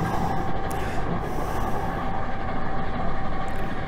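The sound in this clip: A model train runs through a museum exhibit in Wonderlab, the National Railway Museum's gallery, giving a steady rattling, rumbling roll with a faint high squeal now and then, continuous and without pause.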